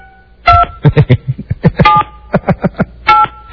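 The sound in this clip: Telephone keypad tones sound as a name is entered into an automated phone directory. Many short beeps come in quick, uneven bursts, some held slightly longer than others, with no talking.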